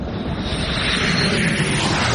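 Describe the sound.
An airplane at the start of a flight gives a steady, broad roar, a loud, even wash of engine and air noise that holds constant throughout with no distinct events.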